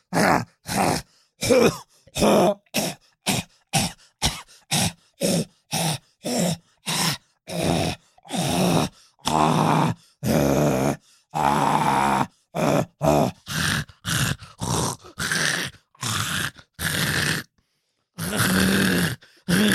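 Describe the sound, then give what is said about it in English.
A voice imitates harsh coughing from popcorn stuck far back in the throat: many short, rough, groan-like hacking bursts in a fast, uneven series, with no words spoken. “I got some popcorn stuck in my throat and I started coughing really bad. You know, it was one of those where it's like way in the back and you're just going,”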